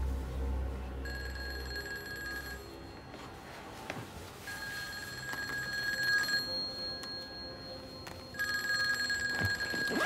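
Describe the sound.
Telephone ringing in a drama scene, three separate bursts of bright electronic ringing over faint, steady background noise, with no talk.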